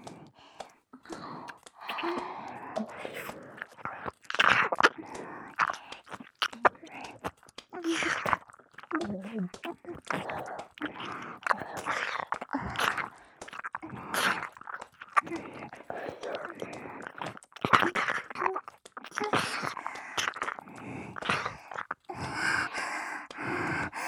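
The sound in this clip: Wet licking and mouth sounds, many soft smacks and slurps in an uneven rhythm, quiet and close, with breathy gasps mixed in.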